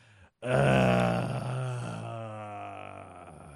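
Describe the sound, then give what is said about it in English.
A single loud, drawn-out human groan, voiced and throaty, starting abruptly and holding for about three seconds while easing slightly in strength toward the end. “I have to groan louder and roll my eyes harder.”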